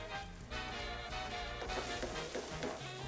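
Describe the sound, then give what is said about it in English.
Already-cooked enchilada sauce hits a very hot pan and sizzles, giving a faint, steady crackle and hiss that holds at a low, even level. “All right, now we're going to take our sauce that we made and go right into that same pan because we just want to get it very hot.”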